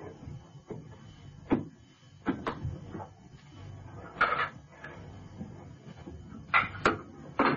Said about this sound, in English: Now then, what about opening your case and seeing those specimens of yours, eh?